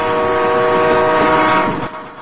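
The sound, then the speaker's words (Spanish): A train locomotive approaching on rails: a loud, steady rumbling roar with sustained tonal lines like a horn running through it, easing slightly near the end. “Al fondo del paisaje, la locomotora se acercaba con un ruidoso advenimiento.”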